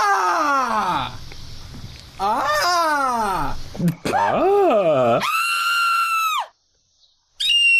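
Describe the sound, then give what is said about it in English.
A person screams in a series of loud, drawn-out cries with wavering, bending pitch, separated by short breaks. The last scream holds a high, steady tone before cutting off abruptly into silence, and a final cry begins at the very end. “That's like a kid screaming. That's like an eight. No, that's like a zero. That's a solid scream, though.”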